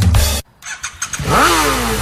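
A TVS HLX 125 motorcycle with a five-speed gearbox revs: a loud engine burst, a brief drop-out, then the engine note climbs in pitch and holds at a steady, strong drone.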